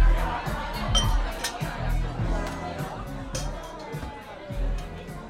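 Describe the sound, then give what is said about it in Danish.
Murmuring crowd chatter in a packed, full house backstage at a comedy venue, a dense continuous babble of many voices with closer speech mixed in. “Det er så vidt vi klarer å presse oss inn døra, for det er stuvende fullt hus.”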